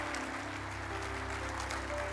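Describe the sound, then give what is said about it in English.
An audience applauds to welcome a pastor to the stage, a faint, even wash of clapping that stays steady throughout with no voices over it. “let's give a good warm welcome to Pastor James Ryle, comes and speaks.”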